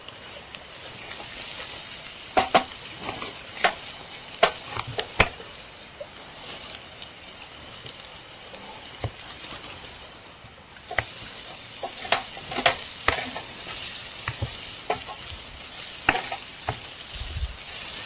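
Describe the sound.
Onion fries in a pan with a steady sizzle and many sharp crackling pops, easing briefly about midway before sizzling strongly again.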